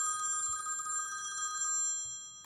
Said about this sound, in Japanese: 電話電話電話電話、 このタイミングで。